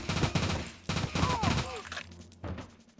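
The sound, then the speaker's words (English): Gunfire rattles in a video game as a player charges down a hallway inside a bank, shooting at enemies: a few loud bursts of rapid shots, with short gaps between them. “Who wants some bullets? That guy wants bullets. That guy definitely wants bullets.”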